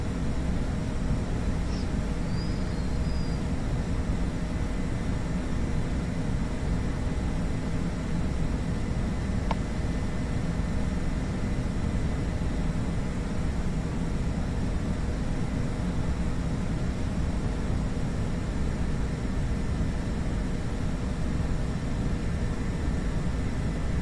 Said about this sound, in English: Microsoft Flight Simulator X. My goodness, man. How long do I have this damn aircraft?